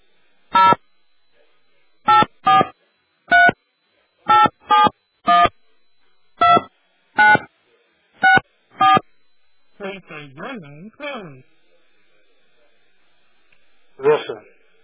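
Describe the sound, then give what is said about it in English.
Eleven telephone keypad touch tones dial a number. The short, evenly loud beeps come at uneven intervals and are followed by a few brief voice sounds. “Please dial 0 plus the area code and number you wish to dial now.”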